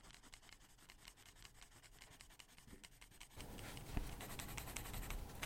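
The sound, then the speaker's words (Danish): Pencil shading on paper, many quick, rhythmic scratching strokes, faint at first and then growing louder and denser. “Og så nogle gange, så kan man være heldig at lave sådan en tegning, hvor man skal skravere rigtig meget.”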